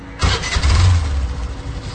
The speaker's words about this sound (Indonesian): aku bergegas pergi ke garasi untuk mengambil motor dan menghidupkannya.